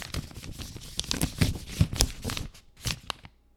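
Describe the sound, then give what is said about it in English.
Papery rustling and crinkling of name slips stirred in a hat for a giveaway draw, a run of busy scratchy bursts that fade toward the end. “Okay, let's draw a name from a hat.”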